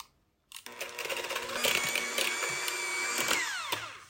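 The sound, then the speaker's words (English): An electric mixer whirs through cake batter with egg being worked in, starting abruptly after a moment of quiet as a loud, steady motor whine with rattling, then winding down in pitch near the end. “All right, I'm going to mix this.”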